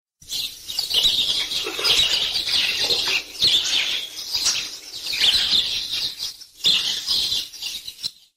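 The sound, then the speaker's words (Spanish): A huge flock of quails flying down onto a camp makes a dense, whirring flutter of many wings mixed with scattered chirps. The flutter runs almost continuously, with a couple of brief lulls. “Y al día siguiente, una bandada inmensa de codornices cayó sobre el campamento.”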